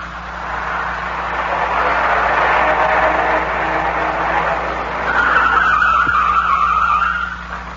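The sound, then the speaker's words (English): A car swerves after circling wildly and skids to a stop at the side of the road, its tires screeching loudly and steadily for several seconds, with a sharper squeal near the end before it fades. “I grabbed the wheel in the nick of time. We almost dropped off an incline. I pulled to the side and shut the motor.”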